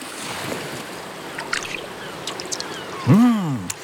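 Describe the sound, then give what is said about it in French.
Soft watery splashing and lapping suggest small footsteps in water, made for a starfish character, with a few faint light taps and a brief swooping tone near the end. “J'entends comme des petits pas dans l'eau.”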